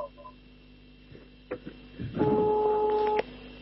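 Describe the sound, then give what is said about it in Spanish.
Ringback tone of an outgoing telephone call: soft clicks, then one steady dual-pitched electronic tone that holds for about a second before cutting off. “lo voy a llamar. Te estoy llamando”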